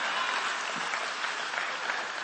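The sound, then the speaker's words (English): A church audience claps together in a steady, continuous wash of applause. It is moderately quiet and holds an even level without pauses. “Now if you're going to clap, give me a good clap. Don't patty cake in the house of the Lord.”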